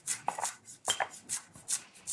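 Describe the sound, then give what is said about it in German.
A knife chops spring onions on a board for a street-food meal, a steady series of crisp, crunchy cuts with slight pauses between strokes, fairly quiet and with no talk. “Die Frühlingszwiebeln erstmal schneiden.”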